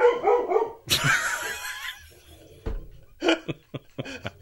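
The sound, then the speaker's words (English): Dogs barking in short, sharp bursts: one loud bark, then a lone bark after a pause and a few quicker yips toward the end, with whimpering sounds at the start. “Got the dogs fired up.”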